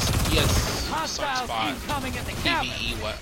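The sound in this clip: Bursts of gunfire from the video game Destiny 2 crackle under a player talking continuously, with the shots sitting fainter than the voice.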